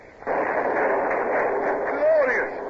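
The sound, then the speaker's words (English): A ship's cannon broadside in a radio drama of a sailing-ship naval battle: after a brief quiet start, one loud, sustained, rumbling roar of gunfire rolls on steadily to the end. “Two broadsides into a stern.”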